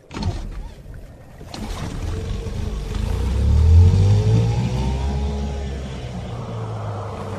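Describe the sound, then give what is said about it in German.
A car engine accelerating as the driver puts his foot down, the revving note climbing in pitch to a peak midway and then settling into a steady, droning hum. “Dann gib mal Gas, Bob.”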